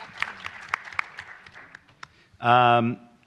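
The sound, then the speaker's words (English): Light, scattered applause from an audience as a panelist is introduced at a civil-rights legal event: loose, uneven claps that then give way to a brief, loud, steady buzzing tone near the end. “Please, applause. Thank you.”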